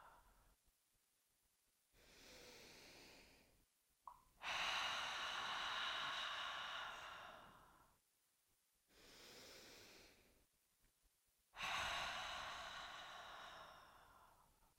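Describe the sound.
Deep breathing in a guided breathing exercise, in through the nose and out through the mouth with sound: two slow cycles, each a softer inhale followed by a long, loud, rushing exhale, with short silent gaps between.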